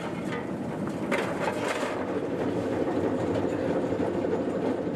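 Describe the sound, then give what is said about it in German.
The Rasender Roland narrow-gauge railway train on Rügen rumbles and rattles continuously, a steady low clatter of wheels and carriages at an even level. “Die ursprüngliche Schmalspurbahn hieß offiziell Rügensche Kleinbahn. Aber schon recht bald bürgerte sich der wohl von den Urlaubern geprägte Name Rasender Roland ein.”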